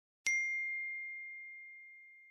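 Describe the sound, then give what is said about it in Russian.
A phone notification for an incoming message sounds as a single bright ding that starts sharply and rings on for about two seconds as a clear, steady tone that slowly fades. “Входящее сообщение на телефон.”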